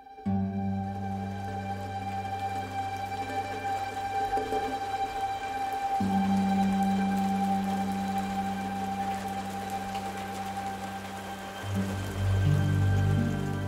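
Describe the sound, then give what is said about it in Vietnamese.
Steady, persistent rain falling over a village, soaking the muddy ground. An even hiss continues throughout alongside sustained low tones. “Làng Triều hôm nay mưa suốt, mưa âm ỉ làm ướt hết bùn đất”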